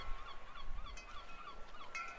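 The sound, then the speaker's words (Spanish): Seagulls squawk over water where they pounce on crabs, a few repeated harsh, wavering cries in a fairly faint, steady sequence with no voices. “En silencio miraban el agua y las gaviotas con sus graznidos”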